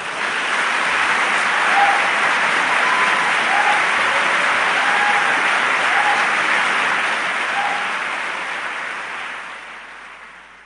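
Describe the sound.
A large audience applauds to welcome Noam Chomsky at a talk in Ireland. The clapping is dense and steady for about ten seconds, then gradually fades.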